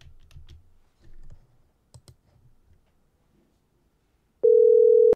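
Telephone call being dialed: a few soft clicks and taps of handling come first, then a loud, steady electronic phone tone sounds alone at the end.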